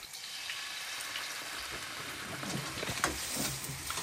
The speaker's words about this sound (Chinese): 翻炒三分钟。 好，三分钟。